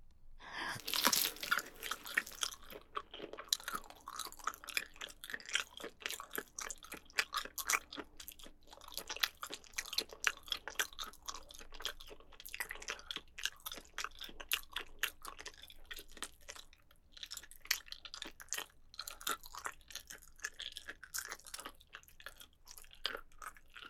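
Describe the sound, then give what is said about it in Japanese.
Chewing and biting crunchy food: a steady stream of faint, crisp crunches and crackles continuing throughout, with no talking. “噛まないと。”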